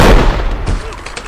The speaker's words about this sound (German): Hey, verdammt guter Schuss!